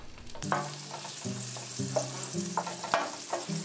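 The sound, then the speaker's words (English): A small piece of butter fries in a pan with a steady sizzle and hiss, broken by a few brief scraping stirs, heard alone without talk. “I got a little piece of butter and we fry a little bit together now.”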